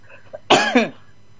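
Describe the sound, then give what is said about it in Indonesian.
A single cough, heard as a sharp, loud burst with a rougher second push, then fading into quiet after a faint short sound before it. “kok batuk-batuk niki?”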